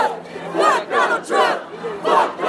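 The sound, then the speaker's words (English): A protest crowd in Boston, angry at the president, chants in rhythmic bursts. Many voices swell and fall together about four times, with no single voice standing out. “Now they're upset with the president. If you can hear them.”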